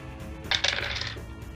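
Two dice rolled during a tabletop role-playing game give a brief, bright clatter of small hard taps lasting under a second, fairly quiet, with no talk over it.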